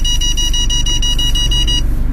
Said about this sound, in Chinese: 记者驾车通过时，车辆的雷达发出了急促的报警声。